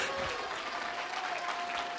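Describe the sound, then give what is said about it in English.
A crowd of people claps their hands together, exhorted to strike as if crushing the devil between their palms. The clapping is loud, dense and continuous throughout. “Clap your hands like the devil's right between your hands.”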